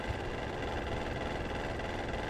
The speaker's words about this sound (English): I would like to clarify for the audience that he manipulated the fan to sound like that.